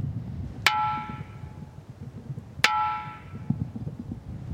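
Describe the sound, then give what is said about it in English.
Natural rock gongs in a remote rocky area are struck twice, each hit a sharp, clanging knock with a ringing metallic tone that fades slowly. A faint tap follows later over a quiet background. “there was like 5 or 6 rock gongs in this incredibly remote area. And the sound of these ones were just even more incredible.”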